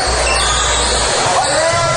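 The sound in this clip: A basketball is dribbled during a game, its bounces thudding under steady crowd noise and voices, with no clear gaps between them.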